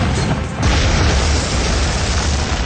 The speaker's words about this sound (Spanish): La descarga de la tanqueta abre un enorme hueco en la pared de enfrente.